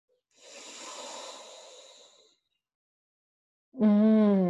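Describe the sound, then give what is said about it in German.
A deep, breathy inhalation lasting about two seconds, airy and hissing, followed after a short silence by a voice starting to speak. “Und dann würde ich dich jetzt bitten, mal einen ganz tiefen Atemzug zu nehmen.”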